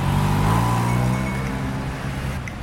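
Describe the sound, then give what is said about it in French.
Delivery vans roll one by one toward loading docks, giving a low, steady engine rumble that gradually grows fainter. “Les camionnettes avancent une à une en direction des quais de chargement.”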